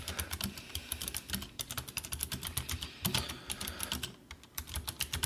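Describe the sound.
Rapid keyboard clatter as a chat message is typed on a computer keyboard in a web browser: many quick, uneven keystrokes in bursts, loud and continuous, with brief pauses between runs of typing.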